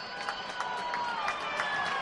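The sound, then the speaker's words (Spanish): A football stadium crowd during a Córdoba match gives a dense, sustained roar of ovation mixed with shrill whistling, the high whistles running steadily above the crowd noise. “Y ovación. Y pitos. Hay de las dos cosas.”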